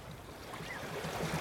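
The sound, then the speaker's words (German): Water washes and swirls as a ship glides slowly through a gently rippling Mediterranean sea off the Egyptian coast, a continuous soft rush with light wind noise and no voices. “Langsam gleitet ein Schiff durch das sich sanft kräuselnde Meer.”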